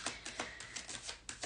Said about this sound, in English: But let's pull a card for the rest of this year for you.